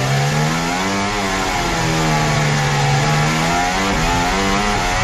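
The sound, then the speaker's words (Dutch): Onboard Formula 1 racing car engine during a race, with another car running close behind: a loud, continuous high-revving whine whose pitch wavers up and down as the revs change, with no talk over it. “We zijn aan boord bij Lando Norris. Hij rijdt achter de Pierre Gasly. Hier zijn we aan boord bij Pierre Gasly.”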